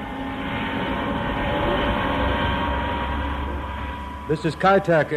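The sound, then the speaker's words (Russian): A steady, loud engine rumble comes from an aircraft at Kai Tak Airport in Hong Kong as a special flight prepares for departure. A man's voice starts speaking over the drone near the end. “Это аэропорт Кайтек в Гонконге. К вылету готовится специальный рейс.”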